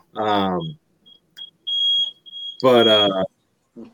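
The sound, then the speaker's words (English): A smoke alarm going off in a house gives piercing, high-pitched electronic beeps, several short chirps and one longer steady tone, between bursts of a voice. “who's got a fire going on? that's the alarm for my house.”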